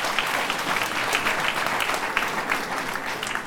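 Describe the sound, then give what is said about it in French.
Long, steady applause from a crowd of protesters as a military convoy departs, a dense unbroken wash of clapping that holds its level for the whole stretch with no talk. “Des applaudissements accompagnent le départ de la colonne des militaires.”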